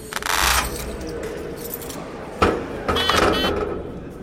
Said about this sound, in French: Là, on est sur l'étage supérieur et on est entre les filets et les coursives de la rotonde. Et on passe à chaque fois les grilles, ces bruits permanents, des portes qui claquent, qui ouvrent, qui bipent, et quelques voix qui s'interpellent.